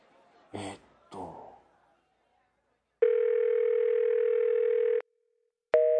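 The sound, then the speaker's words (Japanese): A telephone dial tone sounds as a call is placed: two soft handling knocks, then a steady, loud, continuous tone lasting about two seconds, a short silence, and the same tone starting again at the end. “あ、そうだ、あの人に一回ちょっと電話してみるか。”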